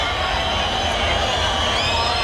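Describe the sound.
A bullring crowd at a bullfight, calling for a second trophy for the matador: a sustained, even roar of massed voices, loud and unbroken throughout.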